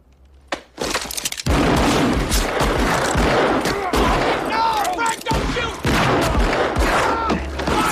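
Gunfire rings out in the OK Corral gunfight scene from the film Wyatt Earp: a dense, loud barrage of rapid shots and sharp cracks, with shattering bursts, running almost without pause.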